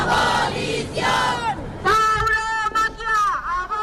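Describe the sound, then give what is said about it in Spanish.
Activists chant at an anti-bullfighting protest outside the bullring in Zaragoza's Plaza del Pilar. The crowd shouts loud rhythmic slogans in unison, their voices surging in strong repeated bursts. “en Zaragoza, unas decenas de activistas se manifiestan frente a la Plaza de Toros, en la Plaza del Pilar, en protesta porque se destine dinero público para las corridas de toros.”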